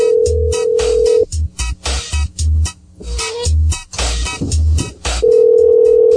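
Cell phone tones while placing a call: a steady electronic tone at the start and end, with many short, irregular tone bursts between them.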